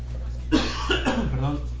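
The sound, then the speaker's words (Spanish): A few short, harsh coughs burst out in quick succession, fairly loud over a steady low hum. “Se fue la tos.”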